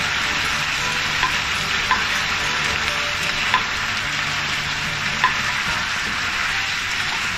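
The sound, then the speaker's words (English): Tofu sizzles steadily as it fries in a stir-fry pan, a dense, even crackle broken by a few louder scrapes and knocks as it is stirred; no voices are heard. “Return the tofu to the pan.”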